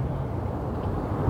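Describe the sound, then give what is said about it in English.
Traffic on the Brooklyn-Queens Expressway (BQE) makes a steady, deep rumbling roar that stays even throughout, with no distinct passing vehicles and no talk. “And that sound you're hearing is the BQE.”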